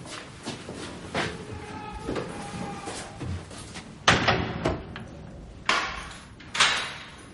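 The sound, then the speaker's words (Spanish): A door is opened by a guard in a prison corridor leading to a cell, with a few heavy clunks and rattles over quiet shuffling and movement; no voices. “Otro abre una puerta.”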